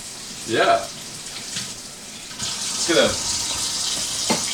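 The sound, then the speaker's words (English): Running tap water fills a container to soak small gadget balls made in China, a steady splashing hiss that grows louder and fuller from about halfway through. “So what you want to do is get some water. You soak the balls here”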